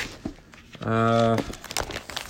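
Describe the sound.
Crinkling and rustling of plastic binder pages being handled while looking through a binder of skill cards, with a brief buzzy tone partway through among the irregular crackles.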